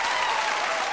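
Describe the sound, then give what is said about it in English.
Studio audience applause at a daytime talk show taping, the kind of crowd reaction used at a commercial break: dense, steady clapping that stays loud and even for the whole second, with no voices standing out. “And these sounds you're hearing are the actual Oprah audience recordings.”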